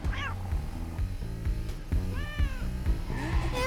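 Cat meowing, an animated cartoon cat giving a few short rising-and-falling cries over steady rhythmic background music.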